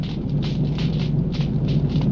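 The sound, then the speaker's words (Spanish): A fire roars as it burns a condemned man's body on a grill atop a pyre at a medieval execution, a steady, dense rumbling hiss with faint crackling flares throughout. “Todo el cuerpo del condenado arde sobre la parrilla.”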